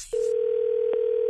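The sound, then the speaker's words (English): A telephone dial tone before a prank phone call: a loud, steady single-pitch tone that holds for a little over a second, with a couple of faint clicks near its end. “It's another Jubal phone tap.”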